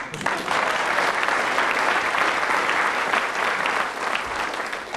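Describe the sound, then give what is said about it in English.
A studio audience at a comedy panel game applauds the winners of a round with dense, loud, even clapping that holds steady for about five seconds, no voices over it. “So the winners there were Tim Brooke Taylor and Willie Rushton, for whom the audience will now rise in acclaim.”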